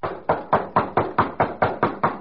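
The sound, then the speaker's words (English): Knocking on a door: a brisk, evenly spaced run of about ten solid knocks, each sharp and loud, continuing steadily from start to end with no voices. “Knock again.”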